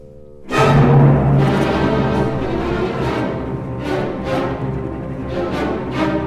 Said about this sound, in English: This development section really explodes because the softest clarinet has ended the B theme, and now we're ready for the development. Okay. And it sounds like this.